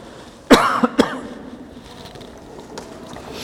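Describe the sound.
A person in an audience coughs three times in quick succession, the first cough the loudest. Low, steady background noise follows.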